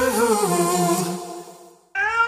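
A domestic cat meows twice. A long, drawn-out, wavering meow fades away, then a short, bright second meow begins abruptly.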